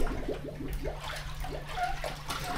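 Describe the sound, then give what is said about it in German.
Soft gurgling and trickling water as an integrating sampler is lowered slowly on a long rope into seawater in a mesocosm, drawing in water continuously. A quiet, steady wash of bubbling runs throughout. “Das ist ein integrierender Wassersampler oder Schöpfer. Und den lassen wir langsam auf 17 Meter runter und währenddessen saugt er kontinuierlich Wasser ein.”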